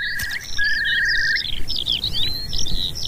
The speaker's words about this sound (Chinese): 这只雌性云雀亲鸟在鸟巢附近落地，在确定没有捕食者后，它才会偷偷回到巢里。